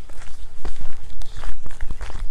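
Footsteps on a walk outdoors, a steady stream of many loud, thudding steps in an even walking rhythm, with a slight scuff on each footfall.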